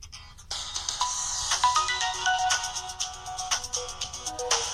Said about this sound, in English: I wonder what the Galaxy S2's default is. This is on Sprint, so it's probably a Sprint sound, right? Yeah, over the horizon.